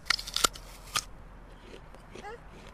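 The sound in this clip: Crisp cutting and crunching as a knife carves bruised spots out of a fallen apple, with a few sharp snips early on, then quieter scraping, and a brief voice near the end.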